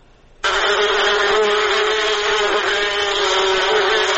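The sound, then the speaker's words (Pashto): Honeybees buzzing at a bee farm in Kunduz: after a brief quiet moment a loud, steady droning buzz starts abruptly and holds constant throughout, with no voices. “په کندز کې د شاتو د مچیو فارم لرونکي د شاتو له تولید څخه راضي دي، خو د بازار له نشتوالي شکایت کوي.”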